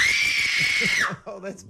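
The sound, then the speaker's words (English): A loud human scream from a screaming contest where volume is measured holds a high, strained pitch for about a second, then breaks and drops off. Brief voices follow. “So jeez, I'm seeing stars. That was a scream.”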